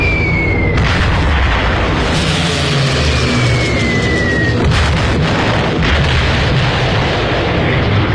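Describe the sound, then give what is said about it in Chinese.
An air strike by Stuka dive bombers: a dense, loud roar of explosions and heavy rumbling with no break, with a couple of thin descending whistles cutting through. “德国空军派出斯图卡轰炸机发动空中打击，”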